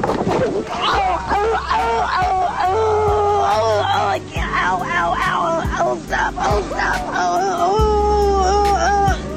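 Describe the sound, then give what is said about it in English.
Several people sob and wail uncontrollably in wavering, high voices, loud and continuous, with low steady bass tones underneath. “Us sobbing uncontrollably.”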